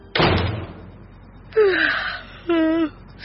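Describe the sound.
A door opening, heard as a single short, dull burst with a low thud at the start. It is followed after a pause by two brief, separate tonal sounds that are voice-like.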